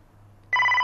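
A telephone begins ringing partway through, a bright electronic tonal ring that sets in abruptly and holds steady over a faint low hum.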